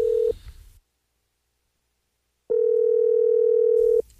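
A telephone ringing on the line: a steady electronic tone cut short at the start, a stretch of silence, then one full ring of about one and a half seconds at the same pitch.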